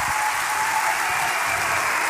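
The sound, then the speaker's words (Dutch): Applause for a soloist at an evening arts event in Leiden: a dense, steady wash of many hands clapping, loud and even throughout with no single claps standing out and no voices. “Kijk, applaus.”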